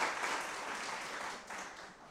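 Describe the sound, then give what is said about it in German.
Audience applause at a church gathering: a steady, fairly soft patter of many hands clapping that continues through the whole moment with only a slight dip. “könnt ihr mal einen Applaus.”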